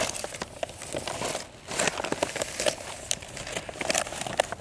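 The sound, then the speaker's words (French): A paper IGN hiking map is unfolded just below a mountain pass, giving continuous crinkling and crackling paper rustles with a short lull partway through. “Je déplie la carte IGN.”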